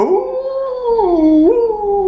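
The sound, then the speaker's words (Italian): A wolf howls once in a long, loud, tonal cry that holds steady, dips lower partway through, then rises back up, heard alone without talk. “Ecco che incontrarono il lupo. Anche il lupo chiese di dove andavano.”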